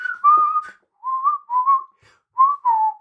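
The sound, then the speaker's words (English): A person whistles a short tune in five clear, mid-pitched notes separated by brief pauses, with slight glides between pitches and the last note falling, alone with no other sound. “And the fact that he's like whistling it. Yeah. Why? This demonic being is just walking around going,”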